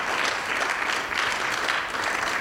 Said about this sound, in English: Let's give the Lord a good clap offering.